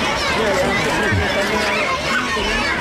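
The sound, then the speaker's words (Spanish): A steady murmur of schoolchildren's chatter fills a public school in Oviedo as Queen Letizia shakes their hands. Many small voices overlap in a continuous, moderately loud babble with no single voice standing out. “Este murmullo que estábamos escuchando era el momento en el que daba la mano a algunos niños que han querido regalarle un libro, pequeño azul, pequeño rojo, elaborado, ilustrado por ellos mismos.”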